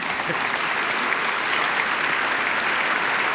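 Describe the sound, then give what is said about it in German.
Applause from an audience at a concert presentation, a dense, even patter of many hands that holds steady, without breaks, for about three seconds. “Sie dürfen gerne applaudieren.”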